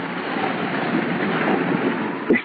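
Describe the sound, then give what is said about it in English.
Sea waves and the tide wash in a steady, continuous rushing roar that stays at an even level throughout, with no voices. “Listen. You can hear the tide. Gloomy sound, isn't it?”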